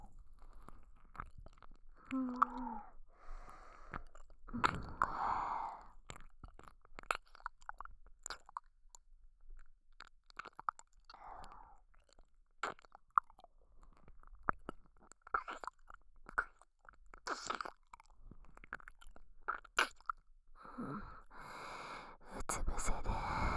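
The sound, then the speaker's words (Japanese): Mouth sucking and licking on an ear in an ASMR recording: many faint, wet smacks and slurps in an irregular rhythm, with soft breaths between them. “今から君の耳をいっぱいしゃぶってふにゃふにゃにしてあげる。”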